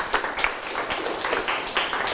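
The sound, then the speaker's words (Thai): Students clap in a classroom, producing a loose patter of hand claps with several sharper, louder claps standing out irregularly against the steady clapping. “ปรบมือครับ”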